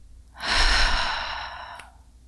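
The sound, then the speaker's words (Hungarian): A single deep, slow breath out, part of a guided exercise of breathing in through the nose and out through the mouth; a soft, airy rush swells quickly, holds, then fades gradually, with no talk. “vegyünk pár mély levegőt az orrunkon keresztül, és fújjuk ki a szánkon keresztül.”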